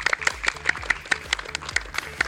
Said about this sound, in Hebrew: ראש העיר מר שי קינן, תנו לו מחיאות כפיים